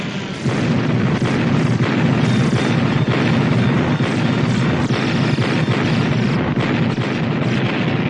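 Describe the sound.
A barrage of military guns firing at alien spaceships in a film: a dense, unbroken roar of booming blasts and rumble, loud and sustained, with no pause throughout.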